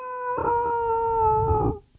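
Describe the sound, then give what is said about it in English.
A wolf howl sound effect: one sustained, smooth howl lasting about a second and a half, holding a steady tone before dipping slightly in pitch and cutting off. “I thought I had a reaction to the wolfing, and I'm like, all right, what are we doing? Well, it's great. It's a great wolf.”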